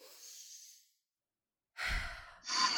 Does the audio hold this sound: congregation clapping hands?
no

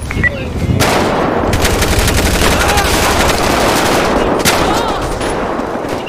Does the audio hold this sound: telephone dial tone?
no

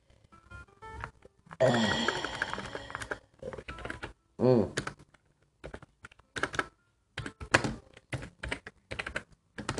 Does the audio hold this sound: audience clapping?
no

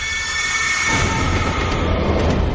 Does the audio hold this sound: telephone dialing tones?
no

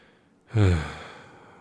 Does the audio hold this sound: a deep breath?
yes

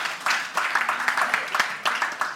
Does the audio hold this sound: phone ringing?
no

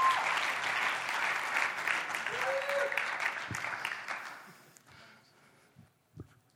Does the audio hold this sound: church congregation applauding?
yes

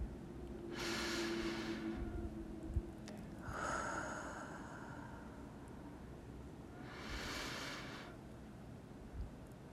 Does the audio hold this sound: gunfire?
no

